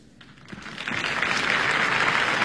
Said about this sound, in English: Applauding a third act entrance.